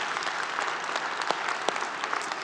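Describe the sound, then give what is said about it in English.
An audience in a church applauds, a steady, dense wash of clapping that holds at an even level throughout, with no voices on top. “For those of you in the room, would you please give our online television audience a big hand?”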